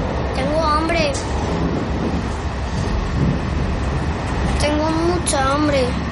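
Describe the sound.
Inside a moving train carriage: a constant low rumbling roar fills the whole clip, while brief, higher wavering tones rise above it twice.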